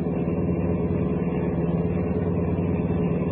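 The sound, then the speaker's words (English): Steady engine drone of a car driving downtown toward a city's west-side manufacturing district, a continuous, even low rumble with no breaks and no voices. “I kept driving downtown to the west side into the manufacturing district.”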